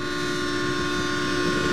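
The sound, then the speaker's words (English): A train rumbles loudly and steadily, with a sustained droning tone running unbroken through the whole short stretch and no voices. “And now looking to hop this train to who knows where.”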